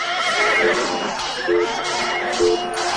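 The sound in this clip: A horse neighs as a sound effect in a radio drama set during a battle with armed Castilian warriors and their horses. Repeated whinnying calls rise out of a thick, constant wash of other sound.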